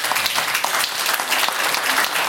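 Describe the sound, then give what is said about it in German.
Studio audience applause, loud and dense, with many hands clapping in a full, continuous burst that stays strong throughout. “Es gibt hier Applaus”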